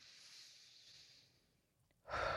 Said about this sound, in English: Close your eyes if you choose to. Breathe in again. And one last one.